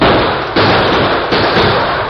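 Gunshots in a radio western drama, a few sharp blasts that set off a thick, roaring wash of noise, each one breaking in abruptly before the loud rush carries on.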